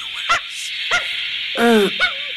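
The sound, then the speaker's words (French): Dog barking and yelping aboard a lunar rocket: a few short harmonic barks, then a longer whining yelp and one more short bark, all over a steady background hiss. “Vous avez entendu ? C'est leur chien”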